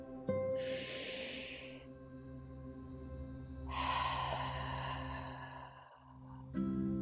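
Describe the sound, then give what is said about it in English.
A slow, deep breath in and out during a guided relaxation exercise: a soft airy inhale, a pause, then a longer, fuller exhale, both quiet and unhurried. “So just take a minute and close your eyes. Take a nice deep breath with me.”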